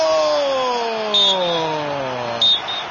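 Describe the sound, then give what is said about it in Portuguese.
Referee's whistle ending a football match in a Porto Alegre arena between Grêmio and São Paulo: two short, shrill blasts cut through a steady droning background. “Apita o árbitro!”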